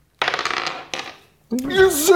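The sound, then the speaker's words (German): A die rolled onto a table, producing a rattling clatter of small hard knocks that settles, then a single brief extra knock, followed by a person speaking. “Und wer anfängt, bestimmt der Würfel. Den habe ich in der Hand. Ich habe mit 2 gewürfelt.”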